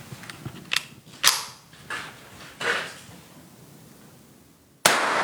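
Sharp cracks of .223 caliber rifle fire from a Savage 10 at a shooting range. A few irregularly spaced reports each trail off briefly, and a final abrupt, louder crack comes near the end.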